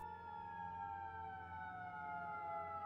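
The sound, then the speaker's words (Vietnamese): A police truck's siren sounds as the vehicle speeds past, a steady wailing tone that falls slowly in pitch and holds for the whole stretch, with no voices. “Phía trước Mạnh có tiếng còi xe ô tô. Chiếc xe chạy khá nhanh phóng vượt qua Mạnh và ông Kha trong giây lát.”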